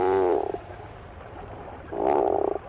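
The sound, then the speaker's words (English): A tufted puffin gives two low, groan-like calls, each a pulsing, throaty moan lasting about half a second, separated by a quiet gap. “Although not a first-rate vocalist, the bird making this groan-like call is one of the most recognizable to the eye. These sounds belong to the tufted puffin.”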